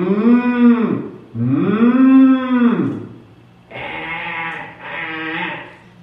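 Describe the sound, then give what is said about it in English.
Cattle and sheep call one after another: two long, loud, low moos, then two shorter, buzzier bleats. “what is this bleating of the sheep? And what is this lowing of the oxen?”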